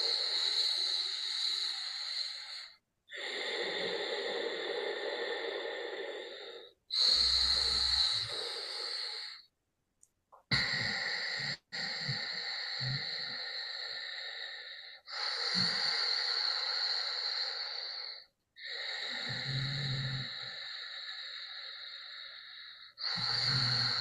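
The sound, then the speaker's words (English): Slow, deep breathing during a guided calming exercise: long, loud, airy breaths of several seconds each, separated by short silent gaps. “A few more breaths like this. Longer and slower.”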